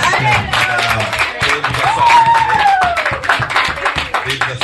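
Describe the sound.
Applause and cheering from a church audience during a service: dense, sustained clapping with voices raised over it, holding steady for the whole stretch.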